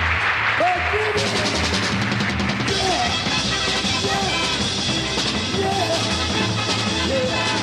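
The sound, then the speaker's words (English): Applause from a live-show audience, given for the bass player of a big band: dense, steady clapping that fills the whole stretch, with crowd voices and whistles mixed in. “My bass player, Mr. Jimmy Grant, how about a wonderful round of applause?”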